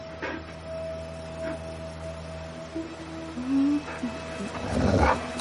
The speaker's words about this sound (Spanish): Sobre una roca, un enorme perro gris suelta una presa y observa a Sebastián.